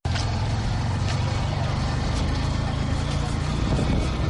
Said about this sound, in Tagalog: Aha ni muri parking ziri mu mujyi wa Uvira ahari za moto zibarirwa mu majana zimwe muri zo ziba ziri gukorera muri iki gisagara izindi ziba ziri gupakira abakiriya bajya mu bice bya Fizi